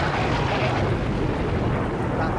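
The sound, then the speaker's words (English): Rain begins to fall as a dense, steady hiss of noise that holds an even loudness throughout, with no voices. “Oh, blast, it just begun to rain. I say, that's rather unexpected.”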